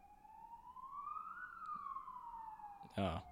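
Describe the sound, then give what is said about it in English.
An ambulance siren sounds one faint wail that rises in pitch and then falls away. A brief voice cuts in near the end. “There's an ambulance.”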